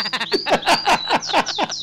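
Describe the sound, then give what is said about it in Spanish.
Small birds chirping inside a room at home on a third floor: a quick, steady run of many short, bright chirps, each sliding downward in pitch, repeating without pause. “Estoy aquí en casa, pero tenemos a los pajaritos. Es obvio. Sí, en la habitación,”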